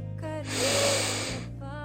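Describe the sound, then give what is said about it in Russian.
One long, deep inhale swells through the nose and mouth for about a second, then fades, with a soft tonal sound before and after it. “И сделайте глубокий вдох.”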